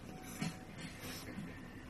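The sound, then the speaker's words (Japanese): Faint, steady motor whirring from a rotating device running on a low setting, a low hum with a few soft bumps in level. “あ、結構モーター音が。あ、近い近い近い。 聞こえるでしょうか。”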